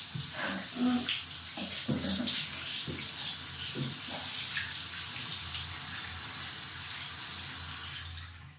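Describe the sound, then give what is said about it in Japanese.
Running water rinses soap foam off a body, a steady broad hiss and splash that wavers slightly in texture throughout and fades at the very end. “泡も流せたかな。”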